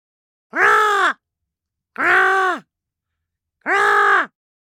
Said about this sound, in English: Seagulls.